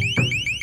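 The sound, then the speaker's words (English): A loud, piercing deterrent tone from a police LRAD long-range acoustic device sounds as a continuous shrill electronic wail built from rapidly repeating rising sweeps, heard alone with no voices. “The second function is the deterrent tone, which is what Michelle heard.”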